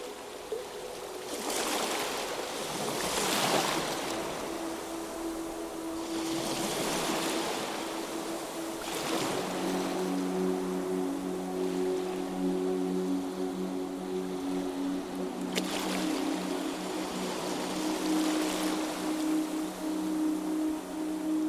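Ocean waves roll in as soft, broad washes of surf, several swelling and fading at uneven intervals over a low, steady hush, with soft sustained tones humming underneath throughout.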